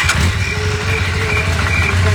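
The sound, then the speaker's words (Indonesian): A motorcycle engine runs at a steady idle, a low, even, rumbling hum with a faint higher whine that stays constant throughout. “Mau kemana kamu? Kok pakai motor? Masjid kan dekat.”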